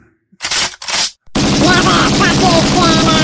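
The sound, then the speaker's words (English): Two sharp gunshot sound effects burst out in quick succession, followed by a loud voice shouting. “We only have so many effects. Yeah, bro, Jesus Christ, I'm trying to do something here. Kill Santa Claus, for fuck's sake. I mean, I'm back. Ow! Ow! Stop shooting me, baby!”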